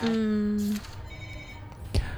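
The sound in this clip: An incoming call rings a telephone at a radio station's song-request line: a steady electronic ring tone holds for under a second and then cuts off. A short, low thump follows near the end.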